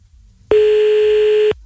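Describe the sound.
A single telephone line tone sounds as a dropped call is placed again: one loud, even, steady beep that holds for about a second and then cuts off, with no talk around it.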